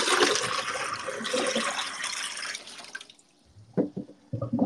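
A toilet flushes after being treated with drain cleaner for a partly clogged drain. Loud rushing water runs for about three seconds, then drops to quieter gurgles and a few splashy drips.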